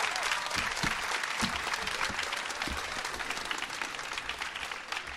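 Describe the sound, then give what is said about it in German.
An audience applauds to welcome a performer onto a stage, producing dense, continuous clapping that stays loud and steady with a slight easing toward the end. “Begrüßt mit mir ganz herzlich hier auf der Bühne Michael Kühn. Macht Lärm bitte für Michael Kühn.”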